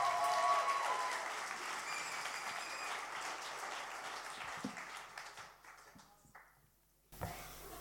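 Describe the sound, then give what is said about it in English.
A church audience applauds as a speaker is welcomed to the stage. Dense clapping tapers gradually to near silence, and a short noise follows at the end. “We're going to welcome Faith Bradshaw to the stage. So why don't you put your hands together for Faith?”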